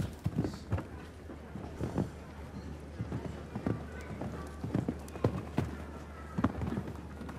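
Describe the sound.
Hoofbeats of a grey horse cantering through a show-jumping round, a steady rhythmic drumming of many strides on soft ground that stays moderately loud throughout.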